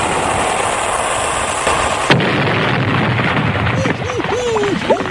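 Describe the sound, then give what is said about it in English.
A staged torpedo-strike sound effect of a ship being hit and sinking: a constant loud rushing roar, a sharp impact midway, then wavering, groaning tones near the end. “Torpedo was on target, and down goes the HMS Beagle.”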